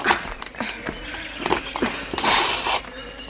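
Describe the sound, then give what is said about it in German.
A horse is led into a small stable, its hooves making an uneven series of thuds and scuffs, with a brief rustling burst near the end. “Also gut, ich lasse den Gaul hier. Aber mein Vater wird sehr wütend sein. Führ ihn in den kleinen Stall hinüber.”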